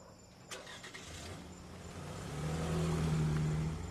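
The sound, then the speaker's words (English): A station wagon starts and backs out of a driveway: faint clicks come first, then a low engine hum that swells and holds steady, quiet overall. “She climbs into the station wagon and backs out of the drive.”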